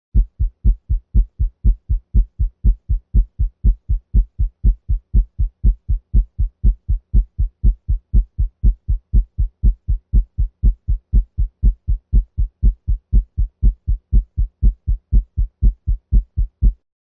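Normal heartbeat at the tricuspid area, S1 and S2 at 120 beats per minute: rapid low thudding pairs, a longer, louder, deeper first sound then a shorter second, repeating evenly about twice a second with no pauses.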